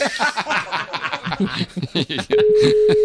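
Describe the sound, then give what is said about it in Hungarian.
A telephone ring tone while a call is being placed: a steady, unbroken tone starts partway through and runs to the end, after people talk and chuckle. “Már hívjuk is.”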